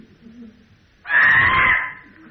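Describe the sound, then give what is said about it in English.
A child lets out one loud, harsh, high-pitched scream lasting about a second, rising abruptly out of quiet and fading back to it. “Time for another primal scream, yeah.”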